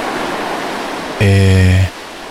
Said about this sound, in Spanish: volvamos al océano ahora. Contemplemos un poquito las olas.